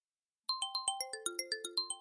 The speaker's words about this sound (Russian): Телефон зазвонил с пронзительной резкостью, заставив всех в кабинете вздрогнуть.